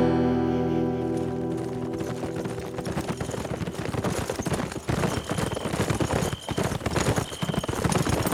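Several horses gallop with riders in the saddle, a fast, dense and steady run of loud hoofbeats that continues for the whole clip.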